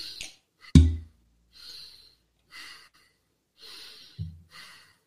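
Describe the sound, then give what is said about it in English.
Breathing-exercise breaths in a medium-sized circle pattern: several short, airy in-and-out breaths alone, separated by brief pauses, with a couple of dull low thumps between them. “you do 40 of the medium sized circle. So it sounds like this.”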